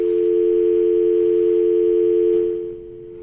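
Telephone dial tone on a line being tried after the lines were switched around: a single steady, continuous hum that holds at an even level, then cuts off near the end, leaving only faint line hiss.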